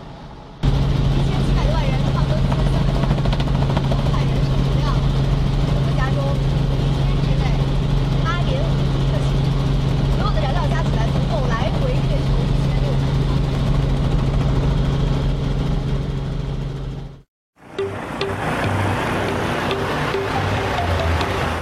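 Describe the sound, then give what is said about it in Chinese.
An eighteen-wheeler truck, over twenty metres long and hauling cargo from the Long Beach port, gives off a steady low engine rumble and broad road noise, with a person talking throughout. “仓库像这个车就是刚刚从长滩那个大港口运货过来的。你看这个像擎天柱一样的大家伙，十八个轮子，大概有二十多米长”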